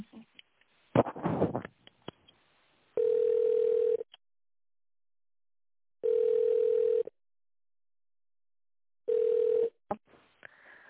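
A telephone ringback tone sounds while a call is transferred to another department: three steady tone bursts of about a second each, separated by silent gaps, preceded by brief clicks and noise on the line.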